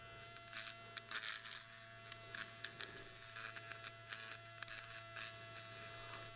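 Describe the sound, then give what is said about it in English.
An uncharged electric trimmer, used straight out of the box, buzzes while shaving nose hair. The faint, steady motor drone sits over a mains-like hum, with scratchy bursts as it catches hair. “Oh, that's so shaving my nose hair right now. Again, folks, I didn't charge this. This is out of the box.”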